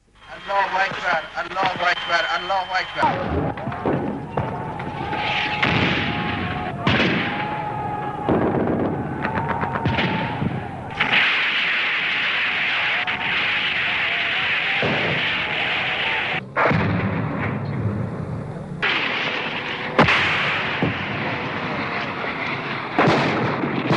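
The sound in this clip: Gunfire and artillery cannon fire during the large Fath al-Mobin offensive west of the Karkheh river near Dezful and Shush: many loud, crackling shots and heavy booms overlap continuously, with talk over parts.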